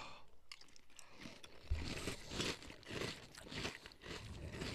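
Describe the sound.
Crunchy Fruit Loops breakfast cereal is bitten and chewed, making a faint series of irregular crisp crunches and crackles that grow denser in the second half.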